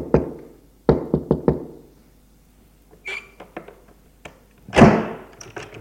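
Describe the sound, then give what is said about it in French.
Knocking on a hotel room door: a few sharp, hollow raps in a quick cluster, then a quiet stretch, scattered lighter clicks and taps, and a louder brushing thump near the end. “il frappe à la chambre”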